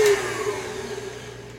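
An electric mixer whirs with a steady, high motor whine that barely changes through its short run, with no voices.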